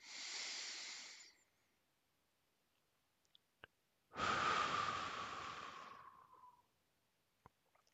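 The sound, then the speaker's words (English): Slow, deep breathing during a guided relaxation exercise: one airy inhale, then a quiet pause with a couple of faint clicks, then a longer, steadily fading exhale. “take a few deep breaths. Inhale for four counts, hold it for a few moments, then exhale and let it out for four counts.”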